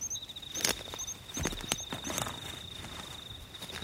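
Footsteps on a dirt path through a forest: a few irregular soft thuds and crunches, with a steady high insect buzz and brief chirps running throughout.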